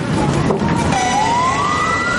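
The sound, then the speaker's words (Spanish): A fire engine siren sounds as the truck drives through city streets in Manila. A steady wailing tone slowly climbs in pitch over a dense, continuous wash of traffic noise. “En las calles de Manila un camión de bomberos avanza. Se acerca a una casa en llamas.”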